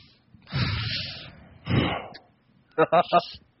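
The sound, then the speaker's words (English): A deep breath is drawn in with a long, airy rush and let out in a shorter breathy exhale, followed by a brief burst of speech. “Deep breath in and out.”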